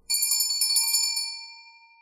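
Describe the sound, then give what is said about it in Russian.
A loud doorbell rings once with a sharp, bright metallic strike, its high tones ringing on and slowly fading over about two seconds, alone with no voices. “Часа в четыре раздался сильный звонок.”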